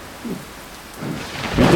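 Heavy rain hisses steadily while low thunder rumbles swell a few times, the last and loudest building at the end.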